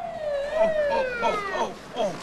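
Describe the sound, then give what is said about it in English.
Police car sirens wail as police cars approach, a loud tonal howl that slides downward and then breaks into a wavering warble. “More police cars approach.”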